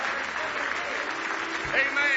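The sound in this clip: A church audience clapping hands in praise, a steady wash of applause lasting about two seconds, moderately loud and continuous with no separate claps standing out.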